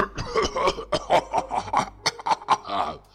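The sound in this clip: A man in a stage play coughs angrily: a rapid run of many short, gruff, voiced coughing bursts of fairly even loudness, with no speech.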